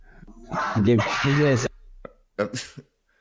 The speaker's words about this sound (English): My dog is kind of agitated or something.